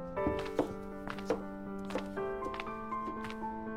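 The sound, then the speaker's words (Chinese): A knife chops vegetables on a cutting board in faint, sharp taps, a few uneven strokes set against a steady sustained musical tone. “洛伊回头看了他一眼，然后马上转过头去继续切菜。”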